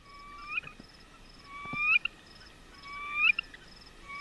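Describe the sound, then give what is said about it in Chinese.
Male bird song in the breeding season: three fairly faint, flute-like whistled phrases, each sweeping upward in pitch, evenly spaced over a low hiss. “这是雄鸟的歌声”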